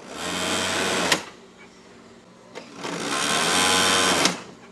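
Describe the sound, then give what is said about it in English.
A sewing machine runs in a small sewing shop on a narrow residential street in Rio, in two steady whirring stretches with a brief pause between them. “Quality that's a trademark at Alan Roberto Lima's small sewing shop. It's located on a narrow residential street in a rough-and-tumble neighborhood, one far from Rio's glitz.”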